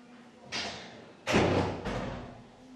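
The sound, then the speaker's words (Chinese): A door is closed with three dull thuds, and the middle thud is the heaviest. All three are fairly faint over a low steady hum. “把那个门关上。”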